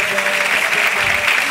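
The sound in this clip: Crowd clapping along during a devotional chant: a dense, steady patter of many hands at an even level, with faint sustained voices beneath.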